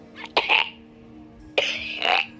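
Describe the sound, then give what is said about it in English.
Choking noises from a man with something stuck in his throat come as two pairs of harsh, rasping throat bursts separated by a quiet pause. “continues to make choking noises for 20 seconds”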